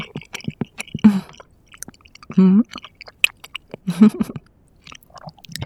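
Someone chews food with a runny, soft-cooked egg, making wet, squelchy bites and smacking mouth sounds in uneven bursts, with a few louder squishy chews standing out between quieter moments.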